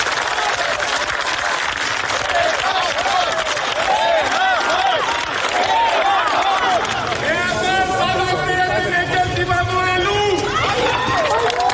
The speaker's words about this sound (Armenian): հավաքվածների ծափեր ու կոչը նրան ստիպեցին կանգ առնել մեքենայի մոտ